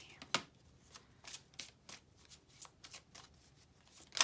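Playing cards being shuffled, many crisp, faint riffles and snaps at an uneven pace, ending with one louder flick.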